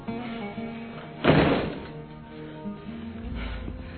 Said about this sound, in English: Please shut the door.